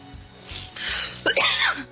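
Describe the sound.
A sneeze from someone whose allergies are flaring: a breathy burst followed by a sharper, louder explosive one, with no words spoken.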